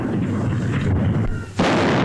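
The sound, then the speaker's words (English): Gun salute fired by the Honourable Artillery Company at the Tower, a deep booming roar with a rolling rumble and a fresh loud blast breaking in near the end. “At the tower, the salute is fired by the Honourable Artillery Company.”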